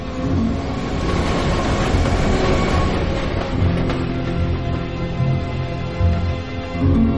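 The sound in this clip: A subway train rolls through a metro with a loud, continuous rumble and a rhythmic clickety-clack from the wheels. The sound holds steady for several seconds, with no voices over it.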